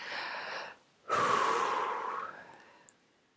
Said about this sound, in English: letting the body take a breath.